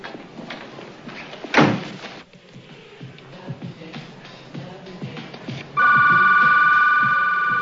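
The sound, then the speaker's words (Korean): Telephone ringing in a nighttime film scene in a woman's room: a steady, loud electronic ring tone starts late and holds to the end, after an earlier sharp bang like a door slam over quiet background sound. “레이첼의 방에 전화벨이 울립니다”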